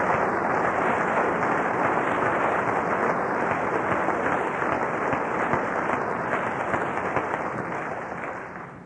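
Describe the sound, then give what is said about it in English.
Sustained applause from a church audience, a dense, even roar of many hands clapping together that holds steady and tapers slightly near the end, with no voices above it. “Now it's time to clap.”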